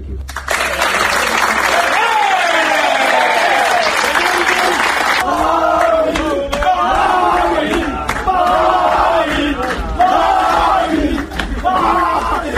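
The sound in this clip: Football teammates in a locker room applauding and cheering, loud sustained clapping and shouting that settles into rhythmic chanting voices over continued applause.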